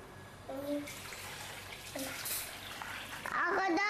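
Running water from a tap as a child washes hands: a steady rushing hiss, with brief tonal squeaks and a louder splash near the end.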